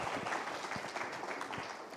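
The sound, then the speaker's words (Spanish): Applause for a group at a soils and landscapes meeting. Fairly quiet, continuous clapping with a few sharper individual claps standing out from the wash. “Un aplauso para el grupo de suelos y paisajes.”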